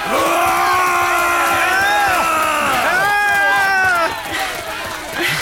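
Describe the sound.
A crowd of people breaking into a run in an animated rugby-style chase: loud, sustained shouting and yelling voices mixed with hubbub that drop somewhat in level after about four seconds.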